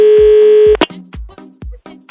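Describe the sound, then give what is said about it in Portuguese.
Telephone dialing a call: a steady dial tone holds, then cuts off with a sharp click, followed by a few short clipped tones in an irregular sequence. “vamos ligar pra Dai.”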